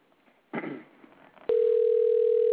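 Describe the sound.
A telephone tone on the line: after a brief rustle, a steady, unbroken electronic tone holds one constant pitch alone until the end.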